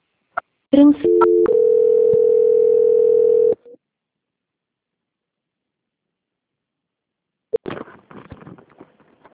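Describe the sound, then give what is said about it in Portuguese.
A telephone dial tone after a dropped call: a few short beeps and clicks lead into a steady, continuous tone of about three seconds. Silence follows, then faint handset clicks and rustling. “Oi, desculpa, a ligação caiu.”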